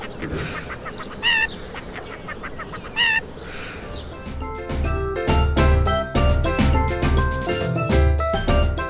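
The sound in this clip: A chicken calling: two bright, harmonic squawks over a busy background, followed by a denser, louder rhythmic passage of repeated pounding hits.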